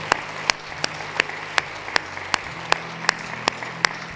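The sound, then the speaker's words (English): A church audience claps to welcome new believers, a steady rhythmic beat of about a dozen evenly spaced, sharp claps in unison over a soft crowd murmur. “Can we put our hands together and welcome new believers into God's family today?”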